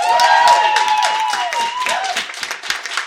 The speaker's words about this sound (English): All right, by a round of applause, Neil Carroll.